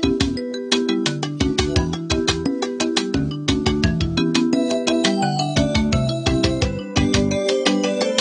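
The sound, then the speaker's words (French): Video game music played on a 1991 Gravis Ultrasound sound card: a bright synthesized melody of crisp, plucked notes over a bouncing bass line, keeping an even, steady rhythm throughout with no voices. “En 91, avec la Gravis Ultrasound, on change encore de catégorie, mais on change pas de musique sur Monkey Island.”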